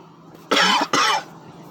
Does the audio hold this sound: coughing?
yes

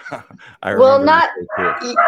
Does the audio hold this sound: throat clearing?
no

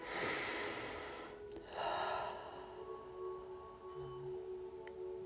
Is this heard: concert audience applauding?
no

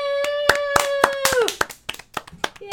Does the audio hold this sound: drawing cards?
no

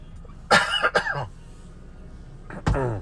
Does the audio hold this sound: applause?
no

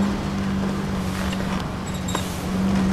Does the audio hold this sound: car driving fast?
yes

